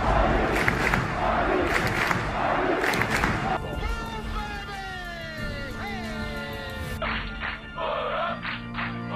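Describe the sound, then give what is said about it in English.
A stadium crowd roars after an interception in a football game. The loud, sustained roar runs under excited commentary, and wailing, siren-like tones sweep up and down partway through. “out of the shotgun again. This crowd roaring.”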